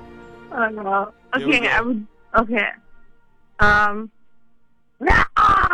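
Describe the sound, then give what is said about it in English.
A person imitates a dinosaur, giving several rough, drawn-out vocal roars and growling groans in separate bursts, some strained and scream-like, with short pauses between them. “Give me your best dinosaur sound impression. If you can imagine what they could have sounded like if you watched enough Jurassic Park, I need your best sound right now”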